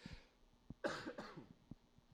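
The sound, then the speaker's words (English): A faint, short cough set off by laughter: a quick pair of rough, throaty bursts between soft background noises. “Every time I laugh, that's when the cough like kind of rises up.”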